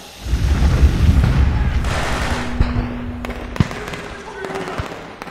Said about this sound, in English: What? Smoke bomb. Doorway!